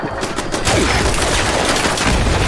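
Automatic gunfire rattles through a settlement-defense video game, with rapid shots running together into a loud, continuous barrage that keeps up without a break.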